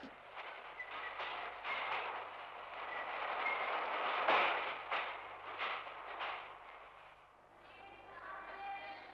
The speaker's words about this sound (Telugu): పదండి బాబు, రైలు వచ్చింది.